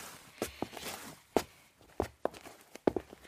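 Footsteps walk toward the kitchen of a café, a quick and irregular series of fairly quiet steps, some landing in close pairs.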